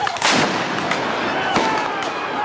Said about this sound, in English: where the police used flashbang grenades and tear gas against protesters, some of whom threw bottles and lit fires